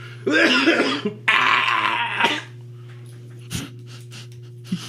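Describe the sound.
A person sneezes twice in loud, breathy, spluttering bursts over a steady low electrical hum, followed by a few faint, short snuffling sounds.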